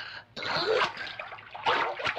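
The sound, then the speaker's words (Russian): Someone dives under foamy bathwater in a tub, making splashing and sloshing water. After a brief pause the splashing comes in two lively bursts of moderate loudness. “Ныряет под воду. Вынырнув, кидается в тигра пеной.”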